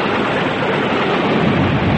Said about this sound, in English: Is there no way out of this terrible storm? Are we doomed to perish in these dreadful seas?